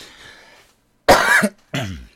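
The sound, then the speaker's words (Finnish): Two harsh coughs from one person: a strong, throaty burst followed by a shorter second cough after a brief pause, heard alone with near silence around them. “Pirullista yskää, joten turha tässä lässyttää.”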